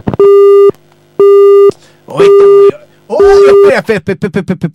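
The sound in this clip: A telephone busy signal sounds as four long, steady, loud tones, followed by a rapid run of short beeps. Voice-like sound briefly overlaps the later tones.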